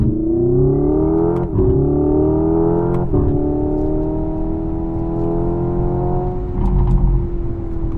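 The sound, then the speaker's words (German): Synthetic combustion-engine sound played inside the cabin of an electric car with a single-speed gearbox: a steady harmonic motor drone with two brief breaks in the first few seconds, like simulated gear shifts, and the pitch climbing gently in between. “Und er macht auch wirklich Verbrenner-Sound. Und das ist schon erstaunlich beeindruckend. Auch da können wir kurz reinhören.”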